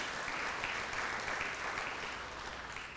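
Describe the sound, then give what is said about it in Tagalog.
Applause from a church audience praising God during a worship service, a dense, steady clapping that holds at an even level for the whole stretch before easing slightly at the end. “Palakpakan nga natin ng Panginoon, mga kapatid.”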